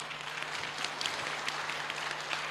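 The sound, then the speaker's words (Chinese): Applause rises as a continuous, fairly quiet patter of many hands clapping, holding steady from start to end. “鼓掌”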